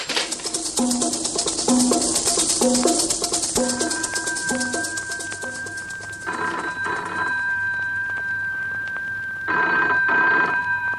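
A telephone rings with repeated bursts over a steady tone, followed by two longer ringing stretches. No one speaks.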